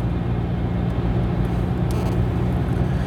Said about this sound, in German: Ich fahre eben auf den Parkplatz und rufe zurück.